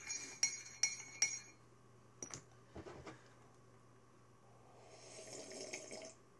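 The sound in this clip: A spoon clinks against a glass as a drink is stirred: three sharp, bright clinks in quick succession, then a few duller knocks.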